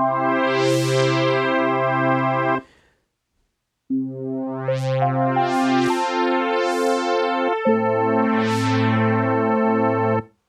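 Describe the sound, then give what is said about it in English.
A Casio CZ synthesizer plays a brass ensemble patch with its wave shaper rate slowed, so each chord swells in gradually. Sustained chords fill two phrases separated by a brief silence, and the brightness blooms on each new chord. “It's a brass ensemble. If I just change one setting on the wave shaper and make the rate slower, instead of having the initial build up really quick, I made it slow. It sounds like this.”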